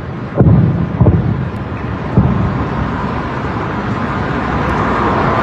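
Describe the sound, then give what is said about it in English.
Air defense rounds fired into the sky over Tehran as jets pass overhead: a few sharp booms early on over a continuous low rumbling roar that stays steady to the end. “You can hear some of the sounds of rounds being fired into the sky again as jets are overhead in, western Tehran, eastern Tehran.”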